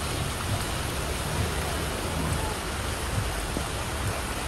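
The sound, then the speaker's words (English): Steady rain and rushing water from flooding in Palm Springs, a dense, even hiss that runs unbroken with no distinct drops or splashes standing out. “More from Palm Springs. Now, this is actually a video, so let's watch this here. Palm Springs is getting pretty wet.”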